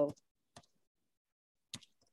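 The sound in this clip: Keyboard keys clicking as a website address is typed: a few sharp, isolated clicks separated by silent pauses, quiet overall.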